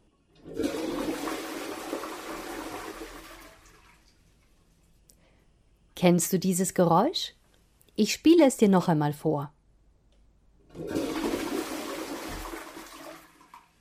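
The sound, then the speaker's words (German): A toilet flush plays twice as two rushing, gurgling bursts of water, each about three seconds long. A person speaks briefly in the gap between the two flushes. “Das Geräusch hörst du mehrmals am Tag an einem ganz bestimmten Ort. Das ist die Klospülung.”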